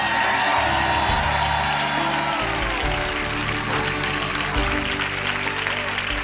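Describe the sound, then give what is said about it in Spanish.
A church audience shouting a cry of victory, with loud, sustained cheering, whoops and applause that continue throughout. “Ahora un grito de victoria al Señor.”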